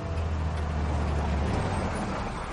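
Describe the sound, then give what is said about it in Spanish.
A bus turns at a crossroads and stops, its steady low engine rumble mixed with broad road noise. The deep drone eases partway through while the overall noise stays fairly even. “Gira en un cruce y para el autobús.”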